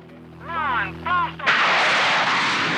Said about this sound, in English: the car blasts off, races up the ramp, and is airborne.